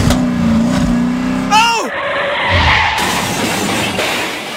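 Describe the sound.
A car drives off: after a brief spoken moment, the engine revs and tires squeal before giving way to a broad, rushing roar of the car pulling away.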